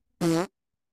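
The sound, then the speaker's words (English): A fart sound effect: a single short, loud, buzzy blast lasting about a third of a second, low and raspy, standing alone against silence. “what did that fart sound like? Did it sound like this?”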